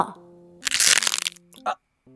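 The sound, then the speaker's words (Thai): A wolf's tooth cracks and breaks as it eats in a cartoon story: a loud, dense crunching burst lasting about half a second, then a short sharp crack, over sustained tonal music. “โอ๊ยฟันข้าฟันข้าหักแล้วแน่ๆ”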